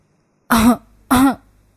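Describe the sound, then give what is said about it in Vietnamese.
Two short, throaty coughs from an elderly person, each a brief voiced burst with a pause of about half a second between them. They are fairly loud and stand alone, with no talk around them. “Cụ Thiên ho nhẹ.”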